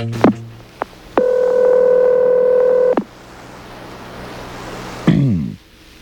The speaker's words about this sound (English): I thought, well, what the heck? I'm calling him at home.